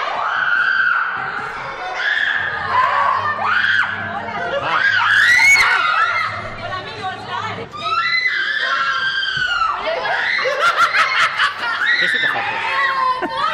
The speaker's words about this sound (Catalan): Mira les reaccions del túnel del terror que muntaven aquí els de la fàbrica. Ah, sí. Sí. Recordem els crits aquests